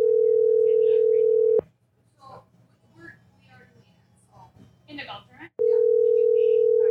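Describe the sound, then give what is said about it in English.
Telephone ringback tone while calling a relative, a steady continuous tone in two long bursts, with a man talking in the quiet gap between them. “Call on Uncle John. He's gonna send me the voicemail.”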